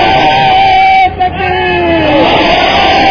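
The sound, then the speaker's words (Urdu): A crowd at a religious gathering shouts a slogan in unison, a loud, sustained chorus of voices that briefly dips near the middle before rising again. “ہاتھ کھڑا کر کے بتائیں, جو ہاتھ کھڑا کریں باقی انہیں مبارکباد دیں, نعرہ لگائیں ان کے لیے مبارک دینا.”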